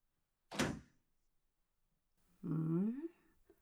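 A blacksmith's shop door is opened: one sharp latch thunk, then after a pause a long creaking groan that climbs in pitch.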